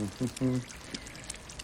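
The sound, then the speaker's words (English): Coffee is poured into a cup in a kitchen where eggs are frying: a faint, soft stream of liquid that runs on after a brief opening sound. “pours some coffee.”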